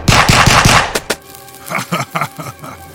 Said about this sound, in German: Die Kugeln prallen vom steinigen Körper des Monsters ab.